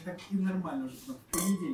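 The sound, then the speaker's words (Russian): Wine glasses clink as they are handled and set out before wine is poured at a tasting, with a sharp glassy knock near the end over low murmuring voices. “Ваш бокал, мой бокал. А вот вино, которое мы сейчас будем пить, Чистерна Фори от Чиробьонди”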